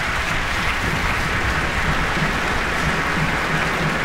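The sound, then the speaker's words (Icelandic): Sustained applause from an orchestra concert audience for the trumpet players: dense, even clapping that holds at a steady level from start to finish, with no voices standing out. “Hún býður hér trompetleikurunum að standa á fætur taka við sínum hlut fagnaðarlátana og básununum á túpunni.”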